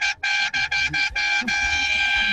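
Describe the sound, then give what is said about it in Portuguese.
A vehicle horn honks in a rapid series of short loud toots followed by one long sustained blast, its steady bright tone standing out over faint background voices. “Buzina aí, filho. Buzina aí, vai.”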